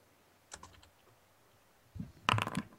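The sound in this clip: Keystrokes on a computer keyboard as someone types a dice roll command: a short burst of a few clicks, a pause, then a quicker, louder flurry of taps at the end.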